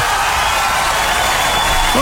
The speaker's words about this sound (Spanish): Ya, un aplauso entonces, ya.